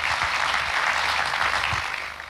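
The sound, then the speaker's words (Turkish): Audience applause welcoming officials onto a stage at an opening ceremony: dense, steady clapping from many hands that holds even and then tapers off toward the end. “alkışlarımızla sahneye davet ediyoruz. Buyursunlar lütfen.”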